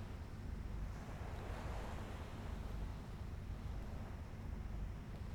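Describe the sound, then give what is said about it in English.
Sea waves wash onto the shore as a steady, even roar of surf with no distinct breaks, mixed with a light breeze. “enjoying the gentle sounds of the sea and the warm sun on your face, the breeze playing on your skin.”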